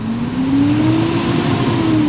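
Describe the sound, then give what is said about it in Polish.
Car engine revved at idle during an exhaust smoke opacity test with a smoke meter: a loud, steady drone whose pitch climbs gently and then eases slightly, sustained throughout with no talk. “Jest to dymomierz DS2, który po prostu na biegu jałowym pojazd kilkukrotnie gazuje.”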